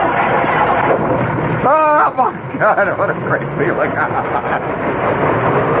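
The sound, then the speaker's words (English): A 1956 Pontiac engine running after a reluctant start, a steady broad rumble throughout, with a man talking excitedly over it. “Isn't that a great sound? That is the sound of a 56, seriously, a sound of a 56 Pontiac just getting, you know, getting it all together,”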